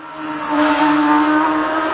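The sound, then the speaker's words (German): Superbike and supersport racing motorcycles at full throttle: a sustained, loud engine roar with a strong droning tone and high whine that swells quickly in the first half second, then holds steady with no voices. “Das ist Superbike, Supersport, Sportbike, internationales Topfeld, Vollgas auf Champions League Niveau”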